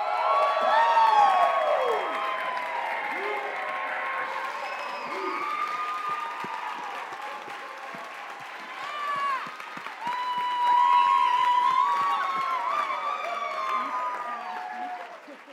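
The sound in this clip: A church audience cheers and applauds to welcome a couple, with whoops and shouted voices over dense clapping. The noise holds for about fifteen seconds, dips briefly in the middle and swells again near the end.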